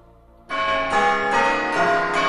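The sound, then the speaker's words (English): A clock tower bell strikes midnight with a rich, ringing metallic tone. After a brief quiet start, several strikes follow about half a second apart, each overlapping the lingering ring of the one before. “They both look quickly round at the clock tower. It's midnight.”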